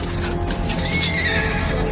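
Horses neigh in a loud, continuous whinny lasting about two seconds, a high wavering cry over dense, rough background noise with no speech.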